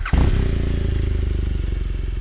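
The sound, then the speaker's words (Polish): Motorcycle engine of a BMW RS1200 with a traditional 1200 cc, 120 hp boxer engine. It comes in abruptly and settles into a loud, steady, low throbbing with evenly spaced pulses. “No BMW RS1200 wygląda na bardzo nowoczesny motocykl, natomiast jednostka, silnik to jest tradycyjny bokser, tak jak w BMW, pojemności 1200”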